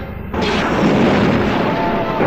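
Laser weapons fire in a space battle as soldiers storm a spacecraft. An abrupt, loud roaring blast begins almost at once and holds steady and dense to the end.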